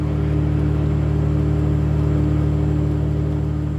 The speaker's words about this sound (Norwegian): står jeg mellom eh, svære grønne aggregat som spyr ut eh, dieseleksos